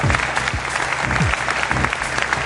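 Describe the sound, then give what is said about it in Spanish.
An audience applauds a guest at a live Spanish-language talk event: dense, continuous clapping from many hands, holding steady and loud throughout. “Pido un aplauso para él, Nando Hernández.”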